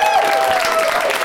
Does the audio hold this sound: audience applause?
yes